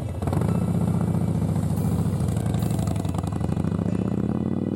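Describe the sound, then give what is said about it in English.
A Harley-Davidson motorcycle engine runs with a loud, steady, deep rumbling throb that holds an even pulse from start to finish, with no voices. “Mags Iverts, who has a passion for Harley-Davidson bikes. There are loads of videos on YouTube. Just have a listen to this noise.”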